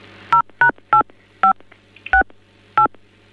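Telephone keypad tones while a caller is switched to another extension: six short, loud dual-pitch beeps in an uneven sequence over a low steady hum.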